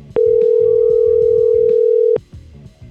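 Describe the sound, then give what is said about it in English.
One steady telephone ring tone, heard while calling a contest winner, sounds for about two seconds. It starts and stops with a sharp click and rides over a quieter, low background. “So let's give a winner a call.”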